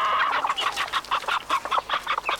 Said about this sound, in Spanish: Gallina con cinco... ¡Pollitos!